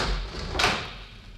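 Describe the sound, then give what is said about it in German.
An old small door with a rusty key in its lock springs open in a single brief, fairly faint burst, with no talk. “sprang die Türe auf”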